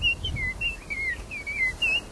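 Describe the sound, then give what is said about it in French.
A nightingale and a common blackbird sing in a series of clear whistled phrases, with warbling, fluting notes repeating over a low background rumble. “Il y a encore un rossignol. Il y a un merle noir qui est venu se joindre.”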